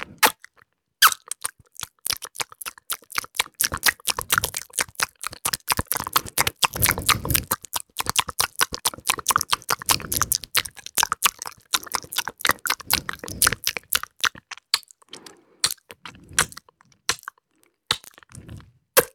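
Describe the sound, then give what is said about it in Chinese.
Chewing and eating cake: many rapid, crisp mouth crunches and wet smacks run almost continuously, thinning to scattered bites near the end, with no talk. “蛋糕好吃。”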